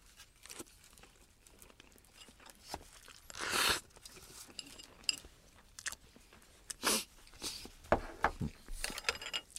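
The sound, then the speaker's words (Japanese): Crinkling and chewing sounds as someone eats natto that has been only lightly stirred, with irregular clicks and a few louder crackling bursts against a faint, quiet background. “じゃあ納豆いただきます”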